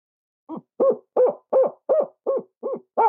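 Owl-like hoots blown through a person's cupped hands as a locator call for turkey gobblers: eight evenly spaced, hollow, mid-low hoot notes in a steady rhythm, loud and alone against silence.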